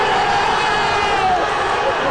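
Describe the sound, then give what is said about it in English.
England football fans roar and chant during a late-night match, a loud and unbroken wall of crowd noise with many voices shouting and chanting together. “36 minutes in, and the match and the crowds came to life.”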